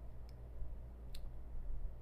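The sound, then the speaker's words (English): Two brief, faint clicks as buttons are pressed in the Cash App on a phone while buying Bitcoin, spaced under a second apart over a low, steady hum. “All right, I have my Cash App open and I'm clicking on Bitcoin, entering $20”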